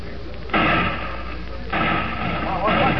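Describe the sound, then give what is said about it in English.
Gunshots ring out in town in a staged western drama: three heavy, booming blasts with sudden onsets and long rumbling tails, spaced about a second apart. “Hey, what's going on here? Well, shots. Doggone, sounds like something doing in town after all”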